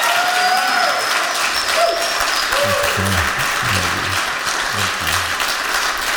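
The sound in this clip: Sustained applause from a church audience standing to welcome a pastor, a dense, steady clapping throughout, with low instrumental tones entering beneath it in the second half.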